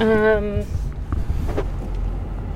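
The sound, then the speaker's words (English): A car pulls away and drives off, a low engine and road rumble with wind noise, beginning just after a brief voice is heard. “We're going to pull around the corner and reposition, okay?”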